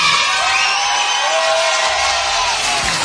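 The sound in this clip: An audience on its feet cheers loudly, with a dense roar of voices and high whoops that stays strong throughout.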